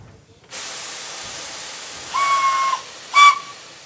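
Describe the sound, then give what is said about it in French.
A steam train stopping at a small red-brick station: steady steam hiss, then two whistle blasts, the second shorter and louder. “Le train stoppe dans une petite gare en briques rouges.”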